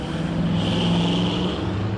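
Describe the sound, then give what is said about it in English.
Large logging trucks loaded with redwood logs rumble through downtown Eureka toward nearby mills, producing a loud, steady low engine drone that continues without a break. “In downtown Eureka, the county seat, huge trucks loaded with redwood logs rumble through downtown on their way to nearby mills.”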